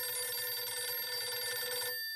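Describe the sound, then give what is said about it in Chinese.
A telephone rings with an incoming call from the front line, relaying word from a wartime cavalry division. The electric ring is loud and steady, lasting about two seconds before stopping abruptly. “就在傅作义心烦不解之时，骑兵第四师师长刘春芳从前方打来电话。”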